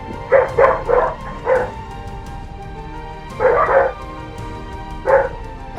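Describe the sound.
A dog barks in the background during an online tabletop role-playing game session, giving quick clusters of sharp, fairly loud barks separated by short pauses.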